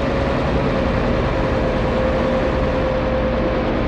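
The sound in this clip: A motor ship's engine rumbles as it sets off on a sea voyage. The heavy, low drone is loud and steady throughout, with a thin constant hum on top and no voices.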